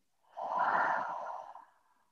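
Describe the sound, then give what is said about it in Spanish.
A deep breath drawn in and let out through the mouth during a guided meditation, one soft, airy rush of breath that swells quickly, holds, and fades away slowly on its own. “Inhalando profundamente y exhalando por la boca.”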